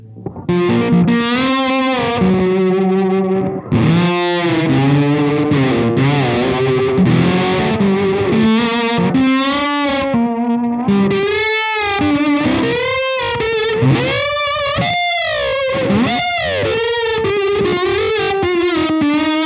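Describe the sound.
Eventide H9 auto filter effect on a distorted, sustained melodic line, its notes swept by wah-like, vowel-shaped filtering that gives a vocal, voice-like quality, continuing for about twenty seconds.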